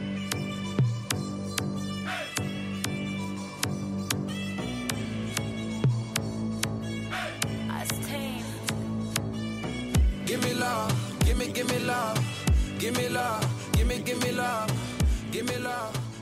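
An R&B and Afrobeats music track plays alone, with a steady percussive beat, deep bass pulses and sustained melodic tones. It grows busier and brighter in the second half.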